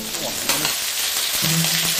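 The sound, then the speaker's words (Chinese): Ciba chili paste hitting hot mixed oil in a pan, giving a loud, continuous crackling sizzle with a few brief clinks and stirring sounds throughout. “热锅中下入冷油，再加入糍粑辣椒的红油，混合两种油，一来提香，二来增色。油热后加入糍粑辣椒。”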